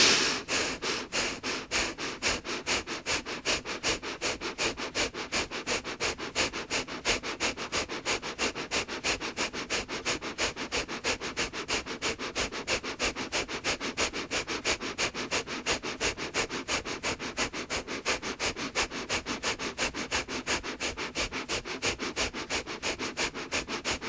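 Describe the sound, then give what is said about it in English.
Rapid rhythmic breathing through the nose during a guided breathing exercise, many quick, even sniff-like breaths repeating at a steady fast pace with no talk. “Shoulders back, and gently, so gently, starting your breathing again. Easy breaths, and then increasing to a pace that's comfortable for you.”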